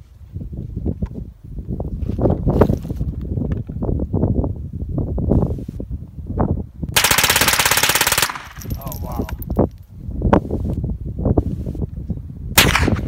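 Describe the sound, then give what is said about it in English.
Guns fired in Arizona, with many loud, rapid shots in bursts that run almost the whole time and pause only briefly. “But anyway, I got to shoot a lot of guns this weekend. Arizona's a great state full of guns and freedom and America.”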